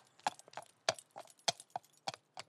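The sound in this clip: Faint, regular clip-clop of horses' hooves as riders head away: eight sharp, quiet strikes in an even, unhurried rhythm.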